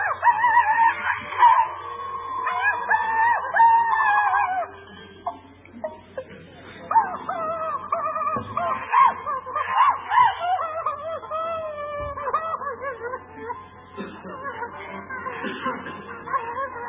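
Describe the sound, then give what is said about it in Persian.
Crying from an animated cartoon character: a long run of high, wavering wails and sobs whose pitch keeps rising and dipping, broken by short pauses, over a faint low hum. “انیمیشنا که برای بچه‌های ما داره پخش میشه اصلا فاجعه است. اینو نگاه کنید، حالا گریهش هم میرسه.”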